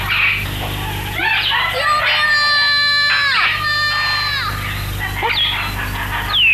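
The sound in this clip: A child cries in long, drawn-out wailing sobs over a steady low hum. The wail holds high and level, breaks off midway, then fainter cries return.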